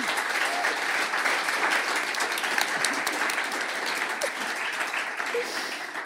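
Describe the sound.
Audience applause welcoming the panel onto the stage, a dense, continuous wash of many hands clapping that stays level throughout, with no single voice standing out.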